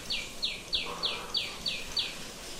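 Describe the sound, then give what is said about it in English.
Short, high, downward-sweeping chirps from a tiny sunbird singing, repeated in an even rhythm over a faint steady background. “The bird making that sound is a little tiny sunbird.”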